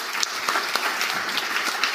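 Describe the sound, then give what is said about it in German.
Audience applause for a guest being introduced on a panel at an event: steady clapping from many hands, with a few sharper individual claps popping out of the even wash of sound. “Auch bitte einen herzlichen Applaus für Gerrit.”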